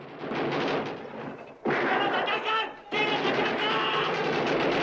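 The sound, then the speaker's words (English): Heavy rapid gunfire as hired hands storm through gates and shoot guards, loud automatic bursts rattling in three sustained stretches with brief breaks between them. “Diego rushes to open the door of his quarters, only to duck back inside as Cassie opens fire. Chris and the other hired hands rush through the gates and shoot two guards.”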